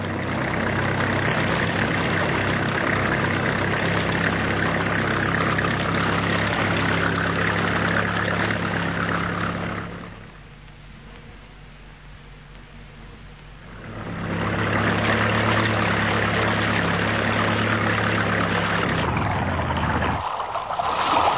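A car engine drones steadily while driving along a road in the dark, a low humming rumble with a constant tone; it drops much quieter for a few seconds midway, swells back to full level, then shifts abruptly near the end.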